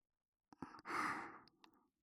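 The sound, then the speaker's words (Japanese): Gentle breath blown into an ear: one long, soft, airy puff, with a few brief quieter breaths just before and after it. “お耳の中をふうふうとして汚れを取りやすくしていきますね。”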